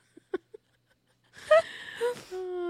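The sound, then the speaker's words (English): A voice imitates a woman's deep, masculine-sounding wheeze: a few faint clicks, then breathy, rasping gasps that end in a sustained voiced tone. “But when she wheezes, it's more like, huh! It's more like deep. It's like a masculine wheeze.”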